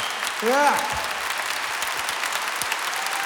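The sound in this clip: Audience applause at a concert for the band's horn section: steady, dense clapping throughout, with a brief voice calling out near the start.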